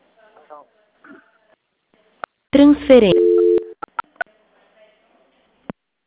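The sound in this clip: Telephone line sounds while a call is transferred: scattered sharp clicks, a short burst of voice, then a brief flat steady tone, followed by a few more isolated clicks.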